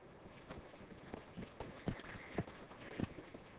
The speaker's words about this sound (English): I'm going to run up there real quick because I need a little aerobics. So hold on. Here I go.